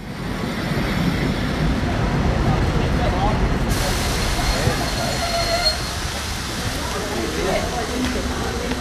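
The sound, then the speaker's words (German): An express train pulls into a German railway station, producing a dense, steady rumble of wheels and carriages throughout. Indistinct voices sit beneath the noise. “Dieser eingefahrene Schnellzug fährt weiter nach München-Gladbach.”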